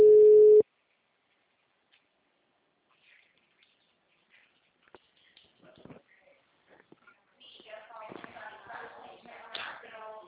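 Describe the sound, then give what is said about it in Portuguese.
A single loud busy-tone beep on a phone line after a dropped call, lasting just over half a second at the very start. Near silence follows, with faint rustles, and talk comes in toward the end. “Oi? Alô? A ligação caiu.”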